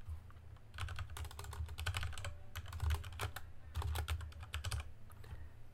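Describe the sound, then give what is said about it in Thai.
Rapid typing on a computer keyboard, fast clattering key strikes in several bursts separated by brief pauses, over a low steady hum. “เดี๋ยวผมพิมพ์ก่อน”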